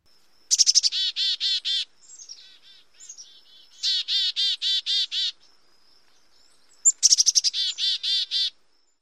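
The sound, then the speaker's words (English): A chickadee gives only the dee part of its chickadee call: three bursts of rapid, evenly spaced, buzzy high notes, each burst several notes long. Softer, fainter notes fill the gap between the first two bursts. “They can also do the D part by itself.”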